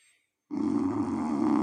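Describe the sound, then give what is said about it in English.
A man snores once, a long, deep rumbling snore that starts after a brief near-silence and holds steady and loud to the end. “Apart from the elephant in the room that's snoring. If he snores one more time.”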